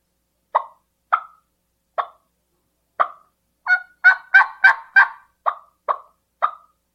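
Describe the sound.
Turkey clucks made on a turkey call: twelve short, sharp, hollow clucks, evenly spaced at first, then a quicker run in the middle before slowing again.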